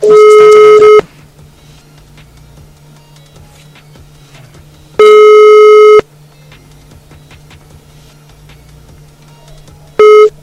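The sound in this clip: Ringback tone of an outgoing telephone call waiting to be answered: three loud one-second beeps spaced about four seconds apart, with a low steady hum filling the gaps.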